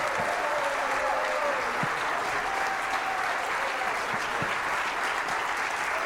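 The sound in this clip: Steady applause fills a church as the audience stands to welcome a guest to the stage, dense, loud clapping running without a break, with voices mixed into the din.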